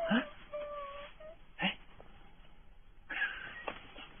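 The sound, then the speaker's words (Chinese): Crying and whimpering in a few short, wavering bursts with quiet gaps between, moaning tones that rise and fade, heard alone without talk. “别哭啊。”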